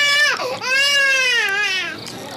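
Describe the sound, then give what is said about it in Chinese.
A baby girl cries in loud, sustained wavering wails, the pitch dipping briefly before the sobbing swells again and then eases toward the end. “不哭不哭啊，乖乖。”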